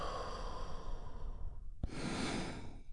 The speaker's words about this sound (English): We begin by taking a big, deep, healing breath all together. Here we go. And release.